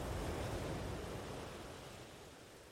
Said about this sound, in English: listening to the sounds of the water, the waves washing gently onto the shore